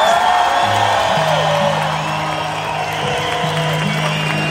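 Audience applause honouring a guitarist after a song, steady and continuous from start to end, with a few whoops over low sustained musical tones.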